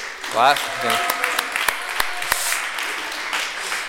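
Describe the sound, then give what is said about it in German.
Applause from an audience at a live stage event, a voice speaking briefly at the start before steady clapping sets in, scattered with a few sharper individual claps. “Anne hat heute auf jeden Fall einen extra Applaus verdient.”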